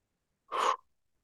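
A single brief breath drawn in through the nose, soft and airy, heard alone in silence and fading out quickly.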